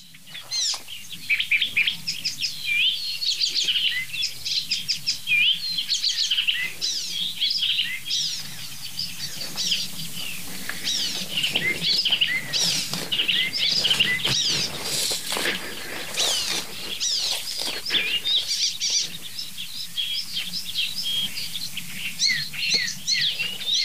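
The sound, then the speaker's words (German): Icterine warbler song, made up almost entirely of imitations: a continuous stream of rapid, varied chirps, whistles and chattering phrases running throughout without pause, with no voices. “Der Gesang des Gelbspötters besteht fast ausschließlich aus Imitation.”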